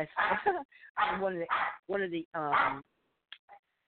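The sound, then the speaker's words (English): A dog barks during a phone call, giving a few loud, drawn-out barks in quick succession, then two faint short yips after a pause. “I think this dog likes to bark on him on the phone.”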